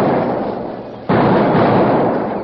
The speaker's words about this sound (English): They set blasting powder into several small holes in the stage trail, lit the fuses, and then ran back into the brush. A moment later, there were several small explosions.